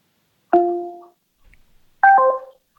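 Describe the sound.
Two short electronic chimes sound as a smart speaker's voice assistant hangs up a phone call. The brief tones are separated by a pause of about a second and a half, with the second chime stepping through a few pitches.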